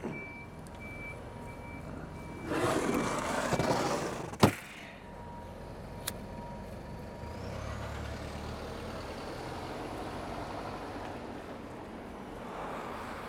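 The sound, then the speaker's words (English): Morning city street ambience with trucks, a steady low traffic rumble, a burst of hissing air brakes, a sharp clack and faint reversing beeps. “Oh, and you will probably hear a wonderful cityscape for our morning reflections.”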